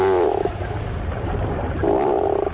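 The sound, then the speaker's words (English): Low, groaning calls of a tufted puffin, a seabird: two drawn-out, moaning harmonic groans, one at the start and one near the end, with a rough, low rumble between them. “Although not a first-rate vocalist, the bird making this groan-like call is one of the most recognizable to the eye. These sounds belong to the tufted puffin.”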